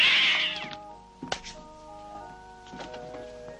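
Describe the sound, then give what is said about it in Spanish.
A cat meows as it is removed from a chair, one loud high-pitched meow at the very start, then quieter sustained tones and a few soft knocks with no voices. “El fraile quita un gato de una silla y se sienta.”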